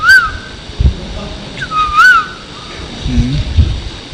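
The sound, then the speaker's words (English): Asian koels and other birds singing, with a few rising whistled calls standing out clearly over a rumbling, busy background. “so many beautiful peacocks and so many kokila singing.”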